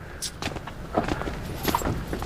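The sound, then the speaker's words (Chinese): Footsteps of people walking upstairs, a few soft, irregular steps, faint and close together. “走，咱们上楼上点钱吧。 走，上楼喝茶去。”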